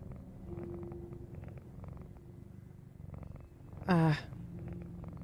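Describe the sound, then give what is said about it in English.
A cat purrs with a steady low rumbling throughout, broken once partway through by a brief, louder meow-like cry before the purring resumes. “I just take this cat outside.”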